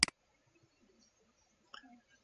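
Computer mouse click: a sharp, brief double tick at the very start, followed by near silence with only faint, soft low sounds.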